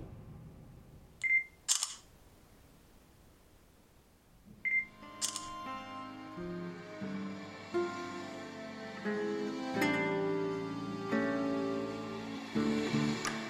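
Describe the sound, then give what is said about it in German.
Camera shutter fires twice as a photo is taken of a group of men, each click preceded by a brief electronic beep, then soft music continues alone. “Komm, Männer, komm. Machen wir ein Foto für mich.”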